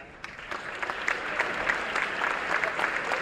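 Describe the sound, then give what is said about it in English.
An audience applauds military veterans and current service members standing at a ceremony, with steady, dense clapping from many hands that holds at an even level for the whole stretch. “We invite both veterans and current military personnel to stand and receive a round of applause.”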